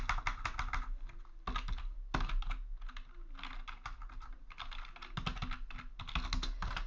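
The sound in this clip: Typing on a computer keyboard to write a chat message during a livestream: a steady, fast clatter of quiet keystrokes in bursts, broken by a few brief pauses, with no voices.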